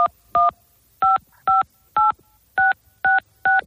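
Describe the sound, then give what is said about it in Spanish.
Telephone keypad tones ring out as a bank password is typed during a phone scam call: eight short, loud dual-pitch beeps in a slightly uneven rhythm, with nothing else in between. “cuando estás marcando los números de tu contraseña bancaria, el estafador se hace a través de esas pulsaciones con tu clave secreta”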